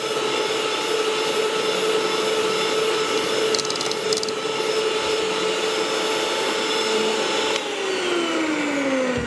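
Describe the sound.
An electric mixer whirs as it beats a batter: a loud, continuous motor drone with a steady hum, its pitch sliding down near the end.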